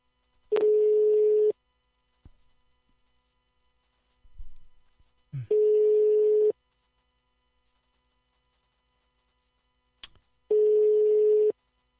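Telephone ringback tone while calling a guest: three steady, mid-pitched tones, each about a second long and spaced roughly five seconds apart, with quiet gaps and a few faint clicks between them.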